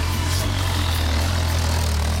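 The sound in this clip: A motorbike engine idles with a steady, loud, low rumble and a broad hiss, unchanging throughout with no talk.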